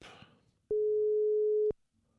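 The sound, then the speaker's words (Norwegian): A steady, mid-pitched telephone ringing tone sounds once for about a second while someone places a call, preceded by a brief voice and followed by quiet. “Jeg må bare få ringt henne opp.”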